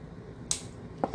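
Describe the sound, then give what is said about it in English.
A knife chops carrots: three faint, sharp cuts. The first is crisp and isolated, and the other two follow close together. “But, I'll cut the carrots less noisily if I can. Chop them a little less noisily.”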